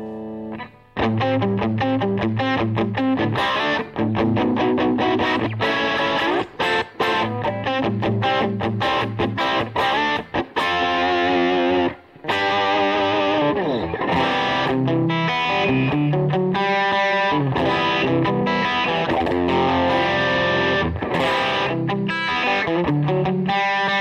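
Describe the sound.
Guitar played dry, without echo or delay effects: a continuous passage of plucked notes and chords, loud and alone, with a few brief pauses between phrases.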